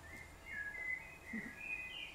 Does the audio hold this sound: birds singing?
yes